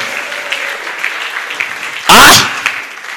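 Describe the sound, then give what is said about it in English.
Clapping from a church audience during a sermon, a steady patter under voices that swells into one brief loud burst partway through. “The way you are clapping, I feel you are sad and you are not happy.”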